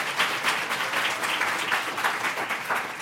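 Audience applause fills a live crime convention hall, dense steady clapping that holds at an even level throughout.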